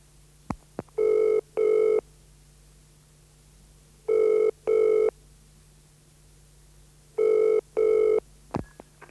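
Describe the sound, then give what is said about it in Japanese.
A telephone rings at a home during a call in Japanese, with three loud double-ring bursts separated by steady pauses. Faint clicks and a low hum sit beneath. “On the telephone. When he gets through to the Katayama's house, Mrs. Katayama answers.”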